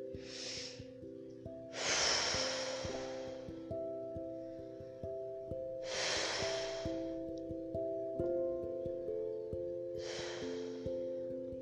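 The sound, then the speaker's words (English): A person takes four slow, deep breaths in a row, each a soft, airy rush separated by pauses of a few seconds. Quiet sustained musical tones play underneath throughout. “I'm going to just take a couple of breaths to tune into the energy of Brother Yeshua.”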